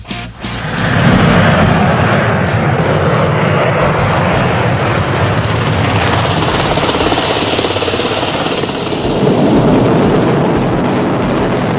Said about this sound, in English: Takeoff.